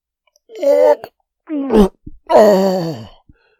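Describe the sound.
Groans from someone with an overfull, nauseous stomach: three loud, drawn-out vocal moans, the last longest and sagging downward in pitch, separated by short pauses.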